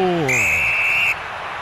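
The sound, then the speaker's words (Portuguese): A referee's final whistle ends a football match at Arena Corinthians. It is one long, steady, high-pitched blast of just under a second, preceded by a brief voice. “Quando apita pela última vez no jogo, o árbitro.”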